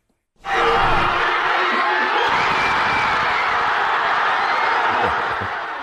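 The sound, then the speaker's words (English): Fans cheering in the streets of Roca Fonda, a working-class, multi-ethnic neighborhood in Spain, after Spain's cup victory: a dense crowd roar bursts in abruptly after a brief silence and holds steady, easing slightly toward the end. “That is the sound of cheers reverberating across Roca Fonda, the working class and multi-ethnic neighborhood where one of Spain's star players, Lamine Yamal, grew up.”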